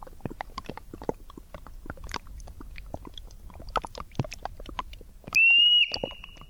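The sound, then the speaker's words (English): An endangered Olympic marmot, endemic to Olympic National Park, chewing: many quick, crisp crunching bites in an irregular patter, then a brief, bright high whistle near the end. “That's the Olympic marmot, by the way. That's an endangered species. It's an endemic just there at Olympic National Park.”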